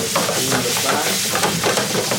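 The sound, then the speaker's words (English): Spaghetti fries and sticks in a pan, starting to blacken, as a spatula scrapes the bottom; a loud, dense sizzle runs throughout with short rasping scrape strokes over it. “So now he's really using the spatula to like scrape the bottom of the pan. The spaghetti is starting to stick to the pan, which is good, right?”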